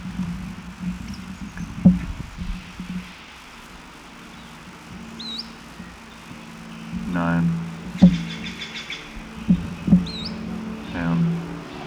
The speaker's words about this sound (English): Another bird in the background giving position notes.